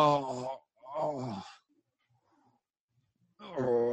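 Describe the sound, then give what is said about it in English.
A voice imitates a groan with a couple of drawn-out, moaning vocal sounds separated by silence, then another voiced sound at the end, all fairly quiet. “You hear a groaning, like,”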